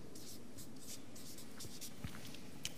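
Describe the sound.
Writing on a board: a steady run of soft, scratchy strokes in quick, irregular bursts, quiet from start to finish.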